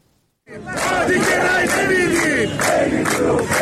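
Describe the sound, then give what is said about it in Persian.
Workers and retirees at a protest gathering in Mashhad shout and chant together. After a brief silence, a loud mass of voices bursts in and keeps up a pulsing, rhythmic chant to the end. “تجمع کارگران و بازنشستگان معترض در مشهد”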